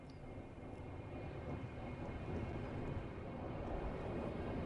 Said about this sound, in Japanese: ああ、東京アプローチ。こちらミリオンエア773便。予定通り成田空港への着陸を要求する。